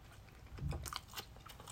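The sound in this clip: Someone bites into a convenience-store tuna, ham and cheese sandwich, making a soft crunch. A few faint, moist chewing sounds follow, quiet and with no talking.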